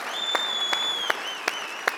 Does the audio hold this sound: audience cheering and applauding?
yes